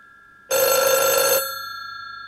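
A telephone gives one loud, bright electronic ring, a buzzing burst of just under a second that stops abruptly and leaves a faint steady hum.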